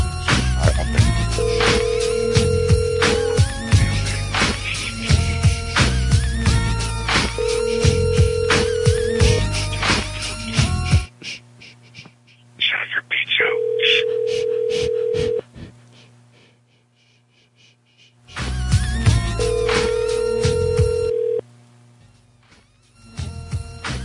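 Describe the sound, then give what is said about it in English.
Ringback tone of a telephone call that goes unanswered: four steady, mid-pitched bursts spaced evenly apart, with background noise in between. “These people aren't going to answer the phone.”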